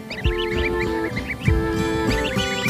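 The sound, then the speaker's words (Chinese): Greylag geese honk while adults guard their flightless goslings: a few loud, nasal, overlapping honks, with higher chattering calls above them. “成年灰雁寸步不离地守护着雏鸟。”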